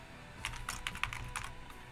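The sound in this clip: Typing on a computer keyboard to write a message, with a quick run of many crisp keystrokes in uneven bursts that stay fairly quiet and steady.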